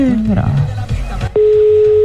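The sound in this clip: A telephone call waits for an answer: brief talk gives way to a steady, unbroken electronic ring tone that holds at one pitch to the end.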